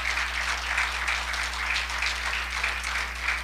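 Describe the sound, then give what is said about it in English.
Audience applause from people seated in pews, a dense, steady wash of many hands clapping that holds at an even level throughout, with a low constant hum beneath. “So let's give him a hand.”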